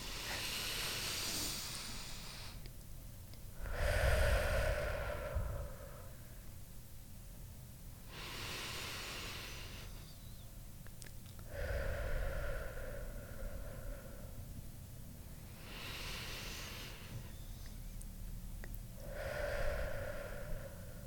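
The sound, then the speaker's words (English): Deep, deliberate breathing: a few big breaths, each a long hissing inhale followed by a fuller, breathy exhale, spaced slowly and evenly with quiet gaps between them and no talking. “We should take 4 massive breaths right now. And let's do it. They should everybody do it with us. Take 4 right. Okay. Big breaths. The biggest breaths that you've taken today.”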